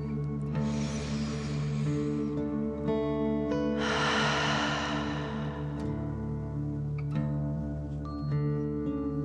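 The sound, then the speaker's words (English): Two long, airy breaths, one drawn in and one let out, during a slow relaxation breathing exercise. Each breath is a soft hiss lasting over a second, over steady, gentle sustained music. “One last dragon breath, in and out.”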